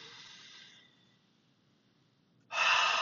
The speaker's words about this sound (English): let's just do this for a second, just take a breath.